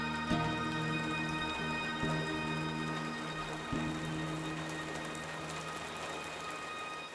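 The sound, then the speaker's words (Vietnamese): Heavy rain pours in a dense, steady hiss, with a few soft thuds early on and faint tonal lines running beneath. “Cô ơi, mưa gió lớn quá, mình có nên về không cô?”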